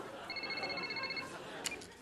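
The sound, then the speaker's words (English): A cell phone ringing, one short burst of high electronic trilling tones, fairly faint against a quiet background. “It's Niles' cell phone.”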